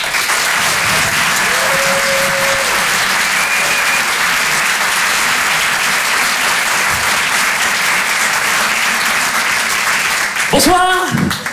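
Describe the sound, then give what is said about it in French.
An audience at a live comedy show applauds a comedian with loud, dense clapping that holds steady for about ten seconds before a voice starts speaking. “en direct des Open du Rire, on peut l'applaudir très fort”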